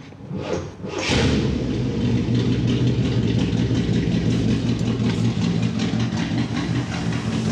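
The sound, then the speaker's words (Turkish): A car engine with a carburetor idles at roughly 600 rpm, too low for a proper idle, catching after a brief burst near the start and settling into a loud, steady low rumble. “şu anda yaklaşık dakikada 600 devir. Biraz daha yükseltmemiz gerekecek. Hala rolanti için çok düşük.”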